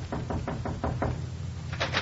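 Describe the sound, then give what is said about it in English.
Knocking on a medical officer's door aboard a warship: a quick run of six even raps, a short pause, then two more, over a steady hiss. “knocked on the medical officer's door.”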